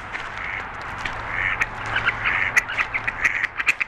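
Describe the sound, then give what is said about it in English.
Ducks quack on a lagoon beside a causeway, with many overlapping calls over a steady wash of background noise. The quacks grow into a quick run of sharp bursts toward the end. “it's about where you can hear the ducks. You got some ducks”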